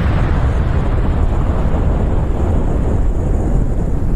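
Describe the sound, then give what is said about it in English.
A bomb explosion sound effect: a deep, loud roaring rumble that holds steady and unbroken from start to finish. “Where's the bomb? I need one of those bombs like it's going to fall on Iran. But there it is.”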